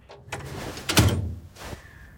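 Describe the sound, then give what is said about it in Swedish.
A drying cabinet door opening in a classroom: a few soft clunks and rattling knocks, the loudest in the middle, with a faint thud near the end. “Fröken låser ytterdörren och öppnar torkskåpet.”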